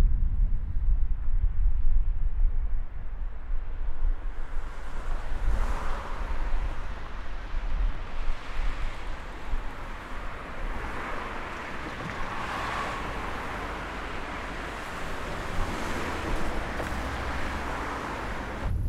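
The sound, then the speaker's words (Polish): Wind buffets microphones fitted with foam windscreens and angled at 90 degrees, a broad, rumbling roar with gusts that is strongest at first, then settles into a steadier rush with occasional swells. “Gąbka jest powrotem założona, ale tym razem mikrofony są stawione na 90 stopni. Różnica jest następująca.”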